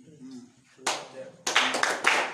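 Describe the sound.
Hands clap during a midnight prayer session for open doors: a few sharp, bright claps in short clusters, with a voice audible faintly between them.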